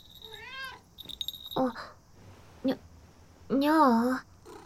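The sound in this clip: A house cat curled up on a person's stomach meows a few times: high, wavering cries with shorter mews in between, and a longer, louder meow near the end.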